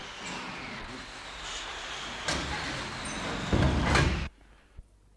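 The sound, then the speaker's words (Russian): An airplane door being closed, heard as a steady rushing hiss that builds, then stops abruptly with a solid shut, followed by a faint short knock. “Капитан Ветров, заходите в самолет, закрывайте дверь.”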